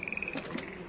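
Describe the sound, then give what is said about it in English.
Frogs croak rhythmically in a swamp, a faint, rapid train of regular pulsing calls with a couple of brief higher chirps mixed in. “you hear the sounds of frogs croaking in the background very rhythmically”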